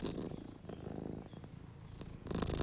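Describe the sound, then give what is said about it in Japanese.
A cat purrs steadily throughout: a continuous low, rumbling vibration with a fine pulsing texture, fairly loud and alone, with no voices. “ゴロゴロで言ってます”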